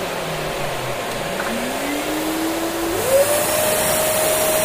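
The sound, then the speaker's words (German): A Dirt Devil vacuum cleaner is switched on at full power. Its motor whine climbs steadily in pitch over a few seconds, then holds at a high, steady tone over the constant roar of a Miele vacuum already running. “Und weil es so schön ist, mache ich den Dirt Devil jetzt auch nochmal an, auf voller Leistung.”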